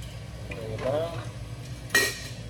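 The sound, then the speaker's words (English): A spoon stirs a vegan mixture in a bowl, scraping the bottom in soft, uneven strokes, then knocks against the bowl in one sharp clink near the end. “What I like to do, I always make sure that whatever's in the bottom gets stirred as well.”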